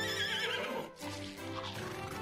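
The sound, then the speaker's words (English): A pony in a bedroom gives a loud, shaky whinny. It has a wavering high tone, a brief break midway, then a lower, rougher continuation. “The next morning when she woke up, a pony was chewing on the curtains in her bedroom.”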